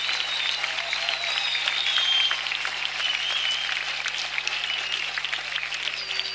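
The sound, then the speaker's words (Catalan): An audience applauds a band, with its string section and a children's choir, after a live rock concert performance. The clapping is loud, dense and steady throughout, with a few whistles rising above it. “Aplaudiment a la banda també, aquí. I a la secció de corda, sobretot.”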